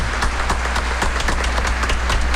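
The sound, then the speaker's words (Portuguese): Applause from an audience greeting a couple: steady, dense clapping from many hands, an even crackling wash with no pauses, fairly loud throughout. “Uma salva de palmas para elas, parabéns”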